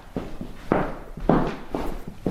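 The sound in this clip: Footsteps walk steadily through a century-old painter's house kept almost unchanged inside, several evenly spaced, fairly soft thuds.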